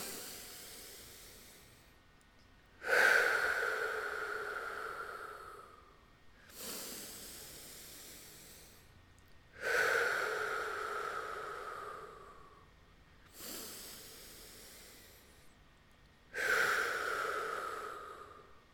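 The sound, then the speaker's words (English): Slow, deep breaths drawn in and let out during a guided breathing exercise, heard as a few long, airy rushes of breath separated by short pauses, with no talking. “Let's take three breaths. Inhale.”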